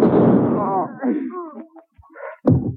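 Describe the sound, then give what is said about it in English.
A gunshot booms out loud and decays in a long, rumbling tail. After a quieter stretch, a second sharp crack follows. “He's got a gun.”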